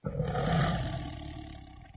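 A white Bengal tiger lets out one deep, rough roar that swells quickly, holds loud, then slowly fades over about two seconds, with no other sounds around it.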